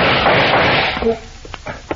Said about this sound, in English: Where those shots come from? As I was looking at the filing cabinet, the little metal flap covering the lock on the second drawer moved aside. Behind it, I saw the muzzle of a pistol.